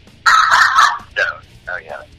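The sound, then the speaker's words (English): An excited dog barks and yips: a rough burst of barking, then two shorter yelps, the last a whiny yip that bends up and down in pitch. No voices are heard. “Even the dog's excited, I can tell.”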